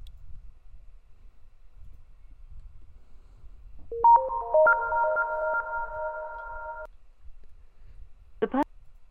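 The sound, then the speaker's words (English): A phone call ringing tone sounds once, a steady multi-pitched ring lasting about three seconds, followed shortly by a brief warbling chirp against an otherwise quiet background. “I'm gonna call him back. Oh, yeah. Let's call him back.”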